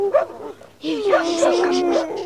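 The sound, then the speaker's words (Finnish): Angry dogs crowding a beach bark and yip, with one short burst and then a sustained, overlapping chorus of barks and whines. “Miksi koirat haukkuvat?”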